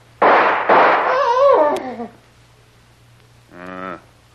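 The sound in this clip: Two loud, sharp gunshot bangs in an audio drama, followed by a falling, wavering vocal cry and, after a pause, a brief voiced sound.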